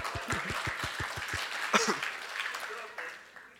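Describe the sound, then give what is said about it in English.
An audience applauds at a talk. A few rhythmic individual claps stand out early over the general clapping, and voices can be heard over it. “And give a clap to him.”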